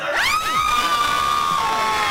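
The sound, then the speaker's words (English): People scream together, loud and shrill, with one piercing cry sweeping down in pitch and then holding steady over a dense crowd of voices. “Oh man, they all screamed at the end.”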